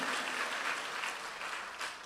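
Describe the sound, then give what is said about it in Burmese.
An audience claps in praise during a church service. The clapping is faint, brief and steady, a soft patter with no voices over it. “အာရပါလက်ခုပ်တီးလက်ဖခင်ကိုကျေးဇူးတော်ချီးမွမ်းပြီးရယူကြရအောင်ဟာလေလုယာဟာလေလုယာ”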